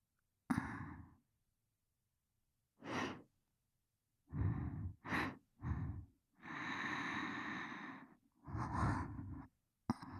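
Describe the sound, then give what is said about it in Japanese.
Several deep breaths, drawn in and let out in an uneven rhythm. Each is a soft, airy rush, with one long, sustained exhale near the middle. No words are spoken. “ほら、しっかりと深呼吸をしてください。”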